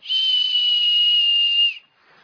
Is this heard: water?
no